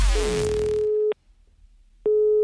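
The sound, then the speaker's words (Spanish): Steady telephone ringing tone: two long, even mid-pitched beeps separated by a short silence. The first beep starts over fading music, and the second plays alone. “Samber va a llamar a Rafi fingiendo ser del seguro”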